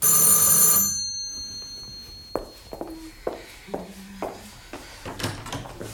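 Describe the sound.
A telephone bell rings in a rapid, bright trill for just under a second and then cuts off abruptly. A few soft knocks and footstep-like thuds follow against near silence.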